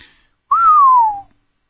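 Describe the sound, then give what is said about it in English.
A single low, unmelodious whistle blown through the teeth holds one sustained tone that glides gently downward in pitch before stopping abruptly. It is loud and clear against silence. “Kinnison whistled through his teeth, a long, low, unmelodious whistle.”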